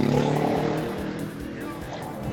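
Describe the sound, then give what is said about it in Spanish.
Motorcycles pass in city traffic, making a loud, rough engine roar that eases slightly and then continues as a broad, steady drone. “Perdón por el ruido de los motos.”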